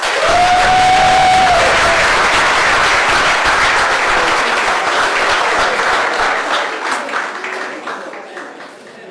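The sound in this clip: Applause with some cheering from supporters in a council chamber after a council member's swearing-in. Dense, loud clapping starts at full strength, then gradually thins and fades toward the end.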